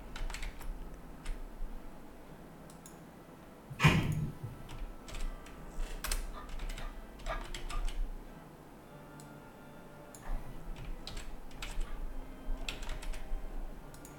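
Typing on a computer keyboard to enter text into a chat: many quick key clicks in an irregular rhythm, with one louder knock partway through, over faint background noise.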